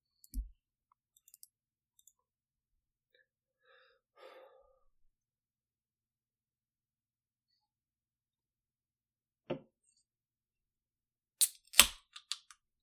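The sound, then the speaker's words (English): A computer mouse clicks a few times in sharp, isolated ticks separated by long stretches of near silence. A soft breathy sound falls in between, and a quick cluster of clicks comes near the end. “I shall click on it.”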